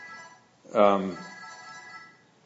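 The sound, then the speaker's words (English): A mobile phone ringtone sounds faintly during a Bible talk as thin, steady electronic tones, with a short louder burst partway through. “is that my phone? Is that this thing?”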